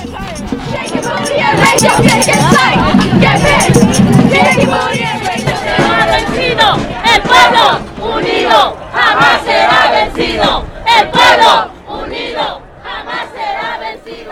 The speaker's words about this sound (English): These are some of the sounds that were heard as immigrants and their supporters called for change.